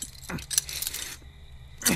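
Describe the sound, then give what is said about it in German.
Keys jangle as someone searches for the gate key: a few short bursts of light metallic clinking, then a pause before one last jangle, all fairly faint. “Ich suche derweil den Schlüssel für das Tor.”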